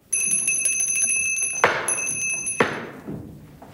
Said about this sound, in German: plötzlich schmettert er es hin und schellt mit einer Klingel, worauf ein alter Diener erscheint.